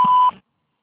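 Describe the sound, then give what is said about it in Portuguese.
A single short, steady electronic beep from a voicemail recording, clear and loud, then silence. “Por favor, deixe sua mensagem após o sinal.”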